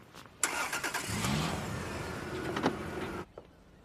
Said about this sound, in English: As she goes back inside, another car pulls up.